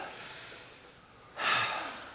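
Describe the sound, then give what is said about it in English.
An audience exhales together after a deep breath, a sudden broad rush of air that swells in at once and thins slightly toward the end, following quiet room noise. “I want everybody to take in a deep breath and let it out with me on three. One, two, three.”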